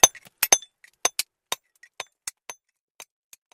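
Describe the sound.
A chisel strikes rock plates during a search for dinosaur fossils, giving many sharp, bright metallic clinks in an irregular rhythm. Each strike is short and ringing and stands alone, with brief silences between.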